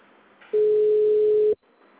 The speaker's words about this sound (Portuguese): Tô ligando no pessoal que faz manutenção no sistema do server, consegui.